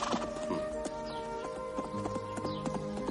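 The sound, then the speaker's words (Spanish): Hooves of a horse being ridden in a courtyard clop in a loose, uneven rhythm: a run of faint, sharp clicks. “En un patio, Mendoza sujeta la puerta del caballo que monta su hermano.”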